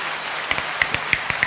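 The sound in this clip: Audience applause welcoming a guest, a dense, steady patter of clapping with a few sharper individual claps standing out.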